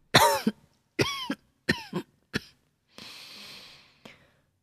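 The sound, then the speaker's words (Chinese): Low, muffled coughing from a woman lying on a couch: several short, throaty, voiced bursts in an irregular run, fairly loud and alone, with no talk. “榻上传来低闷的咳嗽声”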